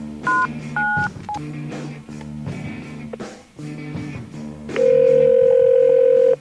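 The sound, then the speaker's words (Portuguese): Touch-tone keypad beeps as a long-distance phone number is dialed: a few short paired tones near the start, later a long steady tone, all over a continuous droning background. “Vamos lá, colocando aqui o código de Sanga Seca, discando o número.”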